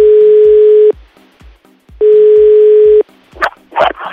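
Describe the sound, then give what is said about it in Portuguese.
Ringback tone of an outgoing telephone call: two steady, buzzy ring tones, each lasting about a second and separated by a silent pause. A few short, noisy bursts follow at the end. “Então vamos ligar pra Camila.”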